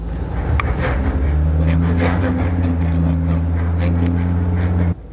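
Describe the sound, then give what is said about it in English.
Turbo diesel dually T 3500 van driving, its engine a steady low rumbling hum that stays even throughout while people talk over it, cut off just before the end. “gets going a little faster than I think for a big old van. Really? These are turbo diesels, which is pretty much like all torque, which is what you need to get up hills.”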